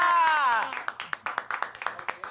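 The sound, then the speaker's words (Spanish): Applause for a woman called up in front of a crowd: a raised voice at first, then a steady run of sharp, rhythmic hand claps that keeps going to the end. “Duro. ¡Aplausos!”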